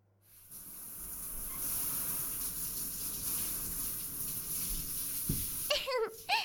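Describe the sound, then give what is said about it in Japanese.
Warm water pours over a body in a bath, a steady, even hiss of spraying water that runs for about five seconds before stopping. “こうして温かいお湯を浴びて体ほぐれたら、きっと気持ちも上向きになるわ。”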